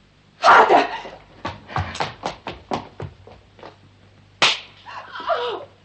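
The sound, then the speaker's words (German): A slap to the face in a German drama scene from 1969: a loud, sharp crack, then a run of many quicker, fainter knocks and taps, and a final sharp hit near the end. “Von hier aus sah es aus wie eine Ohrfeige.”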